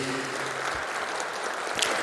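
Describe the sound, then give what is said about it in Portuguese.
Applause from an audience at a Catholic pilgrimage gathering: dense, steady clapping that fills the whole clip, with a voice heard briefly at the start. “Está ali, vamos aplaudir”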